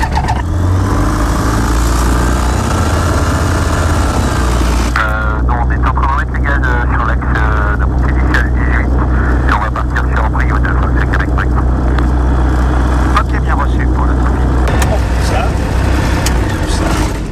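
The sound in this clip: An airplane engine starts up before a flight after a pre-flight check. Mixed noise gives way after a few seconds to a steady, loud, low engine drone that carries on under people talking.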